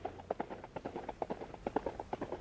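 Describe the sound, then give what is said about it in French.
Galloping horse on a road, its hooves striking the surface in a quick, rhythmic run of many sharp clip-clop beats grouped in short bursts, steady and moderately loud, with no voices. “le galop d'un cheval battant la route, de la retombée rythmée de ses sabots. Le galop grandit.”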